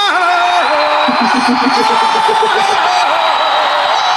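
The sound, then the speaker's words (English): Loud, sustained crowd roar with cheering, whoops and shouted voices welcoming a guest joining a call; the noise stays dense and steady from start to finish. “Let's bring in Brian. Okay. Brian is a big Scrubs fan, and he's a big Scrubs podcast listener. There he is. Thunderous applause.”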